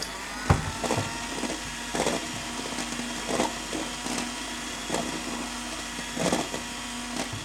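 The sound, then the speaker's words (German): Electric hand mixer stirring a thickening dough of water and flour mix in a bowl, giving a steady whining motor hum broken by recurring gritty scraping bursts, with no talk. “Der Teig wird aber schnell dick. Gut, dann nimm jetzt das Rührgerät weg.”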